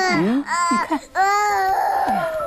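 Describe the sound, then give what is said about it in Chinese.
A child cries in loud, strained wails, a few sobbing bursts broken by short catches of breath, with the voice wavering and sliding in pitch. “啊， 这孩子是不是有啥毛病啊？这咋哭起来没毛病啊？”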